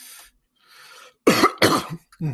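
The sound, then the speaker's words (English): Coughing bursts out in a few harsh, throaty hacks after a faint, breathy lead-in, loud and unaccompanied by talk. “You know, I talk so much, I cough like that.”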